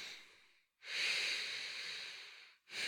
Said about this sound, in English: Deep breaths, okay? Breathe with me, okay?